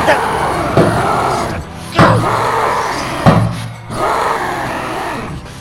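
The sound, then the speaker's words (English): A creature knocks over boxes, giving several heavy crashing thuds over a low rumbling, scraping background. The sharp impacts are spaced a second or so apart. “It's knocking over all the boxes to get to us.”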